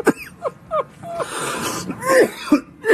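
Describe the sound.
A man coughs harshly and clears his throat after something went down the wrong pipe, in several irregular bursts with short pauses between them.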